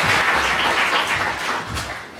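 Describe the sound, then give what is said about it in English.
An audience applauds a speaker at an evening economics and technology talk, with dense, steady clapping that is loud throughout and fades slightly toward the end, with no voices over it. “So please join me in a round of applause for our distinguished speaker.”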